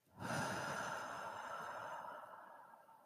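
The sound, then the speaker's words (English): One slow, deep breath in and out during a guided breathing exercise: a soft, airy rush that swells quickly, holds steady and then gradually fades. “So let's take another deep breath in and out.”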